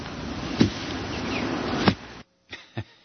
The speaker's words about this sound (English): he was swatting mosquitoes there at the end.